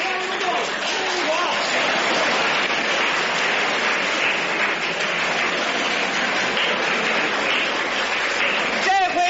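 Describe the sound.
A crowd at a table tennis match rises in a standing ovation, roaring and cheering in a continuous loud wash for the whole stretch as a commentator talks over it.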